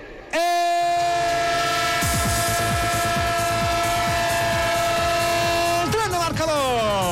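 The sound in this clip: A train horn blares in one long, steady sustained note that bends downward near the end, over the rhythmic clatter of a rolling train.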